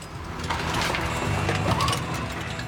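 Steady mechanical rumble of a gold-mining wash plant running: a dense, continuous grinding drone with rattling and clanking layered on top, holding at an even loudness with no voices.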